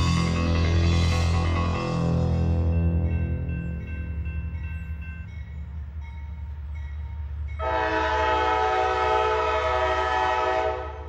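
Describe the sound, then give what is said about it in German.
A long freight train rolls through remote valleys and tree-covered hills of the Appalachian mountains in the eastern US. A heavy low rumble continues throughout, and a loud, sustained multi-tone horn blast sounds over the rumble near the end. “Ein langer Güterzug fährt durch abgelegene Täler und Berge.”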